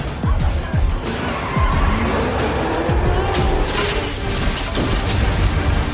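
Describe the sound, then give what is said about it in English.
Car engine roaring with skidding tires as a car swings out onto a road and overtakes another car; a loud, continuous, rough rush with the engine pitch sweeping up and down repeatedly. “He swings the car out onto the road, overtakes a car and heads off.”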